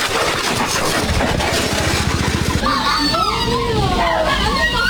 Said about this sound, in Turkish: Erzincan'da motosikletlerin kafa kafaya çarpıştığı kaza kask kamerasına yansıdı.